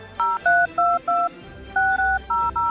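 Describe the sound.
A telephone keypad beeps out dual-tone dialing as someone calls back a dropped caller. Seven clear tones play, most short and evenly spaced, with a longer one after a brief pause.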